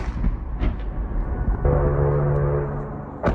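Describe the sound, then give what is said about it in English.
U.S. missile defenses fire to intercept rockets over an embassy compound. A broad, noisy roar turns partway through into a sustained, loud, low buzzing burst, with sharp cracks near the start and end. “This is the sound of U.S. missile defenses intercepting rockets over the embassy compound.”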